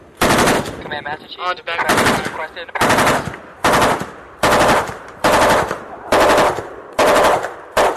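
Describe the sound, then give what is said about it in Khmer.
Heavy gunfire from a US Navy ship during a joint naval exercise with the Cambodian navy at sea off Preah Sihanouk province: loud, regular bursts of rapid shots, roughly one every second, with short gaps between. “សំឡេងគ្រាប់កំភ្លើងលាន់ឮយ៉ាងត្រហឹងបាញ់ចេញពីនាវាអាមេរិកនៅក្នុងលំហាត់យោធារួមគ្នាមួយរវាងកងទ័ពជើងទឹកកម្ពុជានិងកងទ័ពជើងទឹកអាមេរិកនៅលើផ្ទៃសមុទ្ររៀមនៃខេត្តព្រះសីហនុ”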